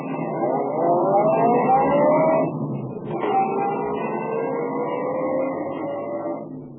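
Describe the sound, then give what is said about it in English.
A car engine driving off, revving loudly with its pitch climbing steadily, dipping briefly partway through, then climbing again as the steady drone carries on. “After they'd reluctantly agreed not to swear out any warrants for a while, I drove down to the shop of Clifford Franklin, the stamp dealer.”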